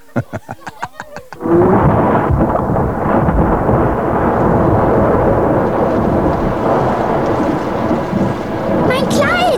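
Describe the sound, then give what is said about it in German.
Heavy, ice-cold rain pours down with thunder in a loud, dense, unbroken rush. A quick series of sharp knocks comes just before the downpour starts. “Dieser Regen, das ist Regen wie Eis!”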